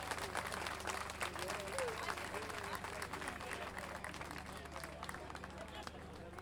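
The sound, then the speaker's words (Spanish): Crowd applause for children performers at an international gathering of improvising folk verse singers in San José de Maipo, Chile: steady, dense clapping throughout, with voices and chatter audible under the claps. “Un aplauso más fuerte para ellos, entonces.”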